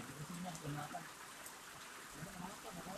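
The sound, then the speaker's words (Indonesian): Steady rain that is not falling hard, a continuous soft hiss and patter with faint voices mixed in underneath. “ini hujannya nggak deres-deres banget awet ya awet awet awet asli ini beneran hujan”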